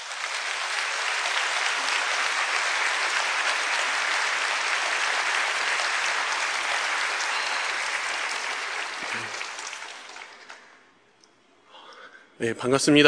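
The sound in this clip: Warm applause from a church gathering welcomes a deacon about to give his testimony, with dense, even clapping for about ten seconds that fades to near silence before a voice begins.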